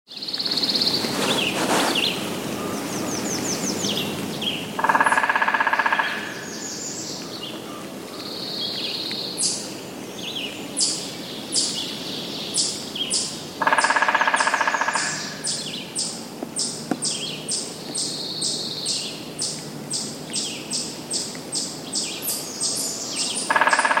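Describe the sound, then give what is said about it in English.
Golden-crowned kinglet song: very high, thin, rapid notes delivered in repeated series, fairly faint and continuing through the whole stretch. “Golden-crowned kinglet.”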